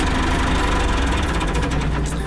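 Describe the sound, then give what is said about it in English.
A tractor engine runs steadily during a farm safety demonstration, with a loud, continuous rumble and a fast mechanical knocking pulse throughout. No one speaks. “Neutral. And brake. And turn off the tractor.”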